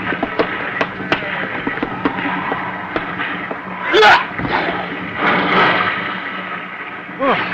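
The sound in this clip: A heavy body thrown over a boat's rail splashes into the water, a burst of watery noise midway through, among scattered knocks and clicks.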